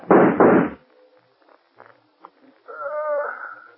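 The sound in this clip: Two loud, sharp gunshot bangs in a radio drama fire back to back at the start, followed by a few faint clicks and a short voice.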